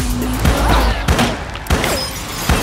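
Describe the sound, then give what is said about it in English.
Warning gunshots fired at a man ring out as a few sharp, loud bangs at uneven intervals over a sustained background. “Shoot at him! Those were warning shots, honey!”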